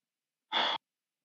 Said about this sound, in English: Such deep breath.